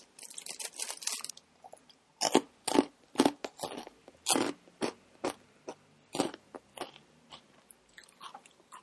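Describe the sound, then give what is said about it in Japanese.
Crunchy yuzu-salt-flavoured snack being eaten: a cluster of quick bites, then many crisp, loud crunches at a steady chewing rhythm, with no talk. “ちょっとそのゆず塩味を今食べてみますね。いただきます。”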